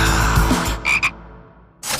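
A frog croaks twice in quick succession. The two calls are short and bright and follow a denser stretch of noise.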